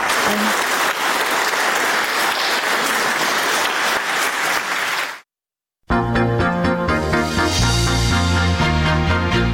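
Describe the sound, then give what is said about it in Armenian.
Loud, sustained applause greets a speech at an event, a thick roar of clapping that stops abruptly. After a brief gap of silence, music begins. “բայց ելույթն ընդունել են բուռն ծափահարություններով։”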